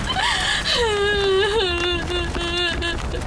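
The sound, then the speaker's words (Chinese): A person cries in a long, drawn-out wail. The voice glides downward and then holds a quavering, steady pitch over constant low background noise. “再哭也扶不过来啊。啊，别哭了啊。”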